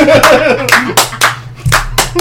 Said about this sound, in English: I'll slow clap that. I will slow clap that.